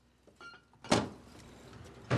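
A desk drawer holding a vodka bottle is pushed shut with a solid thump, and a second knock follows a moment later, both standing alone against faint background noise.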